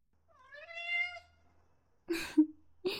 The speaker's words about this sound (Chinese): 之前不是一直说要养猫吗？这也算是礼物之一吧。你看。这只大缅因呢，叫 Tiger